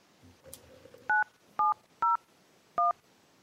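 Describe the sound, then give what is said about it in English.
Four touch-tone telephone dialing beeps as a number is keyed in to call someone waiting in a call queue, short steady dual tones at uneven intervals, clear and loud against a quiet background. “First one is Terry Yanner, so I'm going to go ahead and dial him.”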